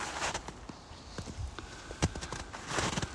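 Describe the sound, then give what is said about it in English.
Soft footsteps on an outdoor nature walk in Minnesota on a snowy spring day: faint, irregular footfalls and light crunches over a steady low hiss, with no voices. “And I am going for a walk in nature. Outdoor area near my home.”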